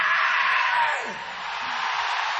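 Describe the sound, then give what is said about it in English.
An audience at a live music performance lets out a loud, sustained collective scream, a dense wash of voices that dips briefly midway and then swells again to the end. “you can all do a primal scream, which is,”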